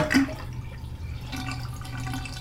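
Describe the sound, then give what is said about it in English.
Water draining from a bathtub: a soft, continuous gurgling wash of water with a brief, slightly louder burst at the very start. “Abigail returned and drained the tub.”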